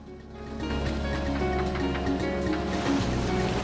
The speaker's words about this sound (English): Underwater, the spinning propellers of the boat.